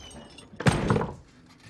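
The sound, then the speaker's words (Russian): A hatch is opened in a tense standoff: a single dull, muffled thunk lasting under a second, rising briefly above a low background hiss, with no voices. “Открой люк для начала!”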